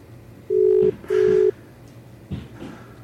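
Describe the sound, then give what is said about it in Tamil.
An outgoing telephone call rings during a radio call-in, giving two short, even ringback tone bursts in quick succession, followed by quiet line noise. “அழைப்பு செல்கின்றது அவரிடம்.”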